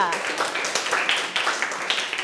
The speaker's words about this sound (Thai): เยี่ยมมากค่ะปรบมือให้เพื่อนค่ะ